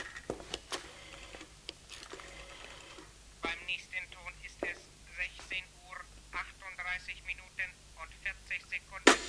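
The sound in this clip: Telephone dialed to call a prison: a run of sharp clicks and ticks, followed by many short tonal bursts at an even pace.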